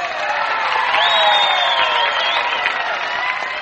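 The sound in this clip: Audience applause and crowd noise at the Grand Ole Opry greet guests Lester Flatt and Earl Scruggs: a steady, dense wash of clapping and cheering that holds at even loudness throughout.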